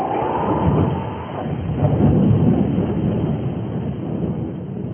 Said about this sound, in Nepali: जब पानी पर्यो र बाढी आयो अनि हुरी चल्यो र त्यस घरमाथि बजारियो